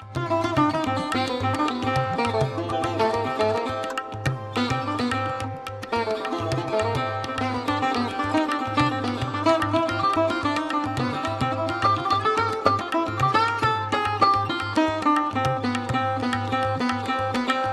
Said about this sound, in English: a sarod is a traditional Indian classical string instrument, and when masters like Amjad Ali Khan and his sons play it, it sounds like this.